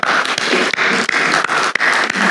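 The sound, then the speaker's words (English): Congregation applauding in church: dense, loud, sustained clapping with a few brief dips in intensity. “Brothers and sisters, would you join me in applauding the Israelites of 1 Samuel 7?”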